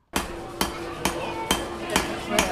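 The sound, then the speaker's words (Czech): A hammer rings on an anvil at a traditional crafts fair in a museum courtyard in Olomouc, striking six evenly spaced metallic blows about half a second apart, each leaving a sustained ringing tone that carries into the next. “Zvuk kovadliny se ozývá na nádvoří vlastivědného muzea v Olomouci.”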